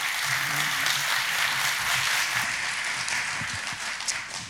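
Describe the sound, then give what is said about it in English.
An audience applauds to welcome a speaker to the front, with a steady wash of many hands clapping at moderate volume that eases slightly near the end. “just give him a warm hand, if you would, welcome.”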